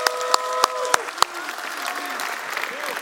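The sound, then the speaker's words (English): A church audience applauding during a service: dense, steady clapping from many hands, with a few sharp, louder single claps standing out near the start, continuing evenly throughout. “Let's give Chula Vista a big hand.”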